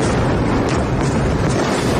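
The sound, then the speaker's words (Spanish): Overnight bombing in Iran comes through as a dense, loud, continuous roaring rumble, with no clearly separate blasts standing out. “Este es el sonido de los bombardeos esta madrugada en ese país, en Irán.”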